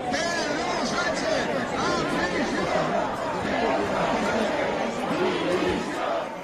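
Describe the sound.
Dense, steady crowd noise from protesters on the streets of Madrid calling for the prime minister to resign: a continuous wall of overlapping voices and shouts that holds at an even loudness throughout, with no single voice standing out.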